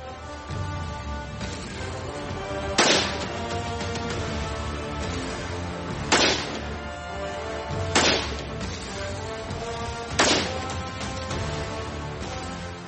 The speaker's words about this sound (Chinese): 所以我们先在不安消音器的情况下进行射击。